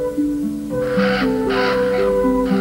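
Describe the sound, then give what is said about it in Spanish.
Hundreds of black birds circling and cawing: a few harsh caws repeat at a steady, regular pace over a sustained tonal background. “Mientras, cientos de negras aves volaban en círculos y graznaban ante la tétrica escena.”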